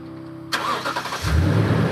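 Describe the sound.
A car engine cuts in suddenly while driving around Eskinobitich, a Mi'kmaq community in northeast New Brunswick. The engine runs at a mid-pitched hum, then a deeper rumble swells and holds.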